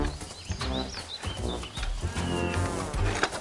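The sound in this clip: A frightened calf, separated from its mother, gives low, drawn-out moos against a constant background buzz.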